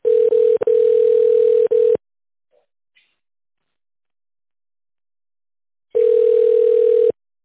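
A telephone ringing tone plays while a call is connected to an operator. A steady mid-pitched tone, briefly broken, lasts about two seconds, then comes near silence with faint clicks, then a second tone of about one second.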